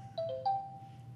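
Mobile phone ringtone playing a few short, bright electronic notes that step down in pitch and then return, faint over a low steady hum.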